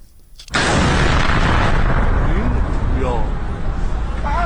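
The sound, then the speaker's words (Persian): A drone-attack explosion in Isfahan shortly before midnight erupts suddenly into a loud, sustained roar and rumble, with faint voices rising over it later. “یه پهباد بود، درسته؟ این صدای انفجاری بود که شنبه 8 بهمن کمی قبل از نیمه شب در اصفهان شنیده شد.”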